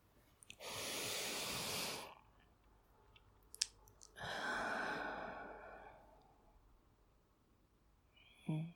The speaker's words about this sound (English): Your diaphragm drops, and then when you breathe out, it's like the roller blind goes back up again.